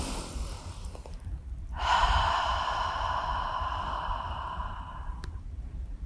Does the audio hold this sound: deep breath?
yes